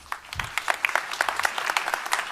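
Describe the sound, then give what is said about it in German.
Audience applause greets a group of young people about to present their web application: many crisp, closely packed hand claps that keep a steady, fairly loud level throughout, with no talk over them. “Einen herzlichen Applaus und viel Spaß.”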